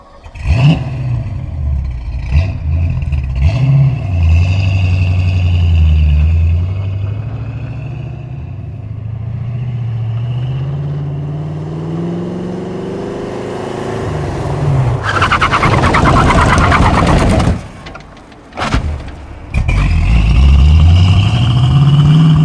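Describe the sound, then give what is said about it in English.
Ford Maverick with a broken axle mount, its engine revving in rising and falling sweeps, then a harsh, loud chattering skid as it brakes hard or drifts, breaking off briefly before the shuddering grind returns. “I think the axle mount was broken. And so when you would start to drift with this thing or stop fast, it would sound like this.”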